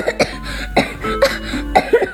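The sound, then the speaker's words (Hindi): A man coughs repeatedly in an uneven run of short, harsh, throaty bursts, with rough voiced sounds between them and no clear words. “वो खांसते खांसते कहता जा रहा था”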